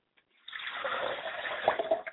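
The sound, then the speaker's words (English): Liquid poured as a libation to the ancestors during a ceremony. A faint, gushing pour splashes for a little under two seconds, with a few louder splashes near the end. “I like to pour libations to the north and call all of our ancestors present here today.”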